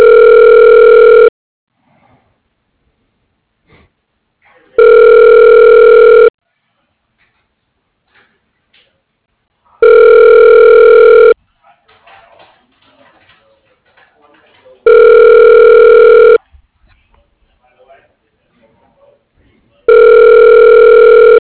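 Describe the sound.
Ringback tone of a telephone call being connected through an automated phone system: five steady, mid-pitched buzzing tones, each about a second and a half long, repeating at even intervals with near silence and faint noise between.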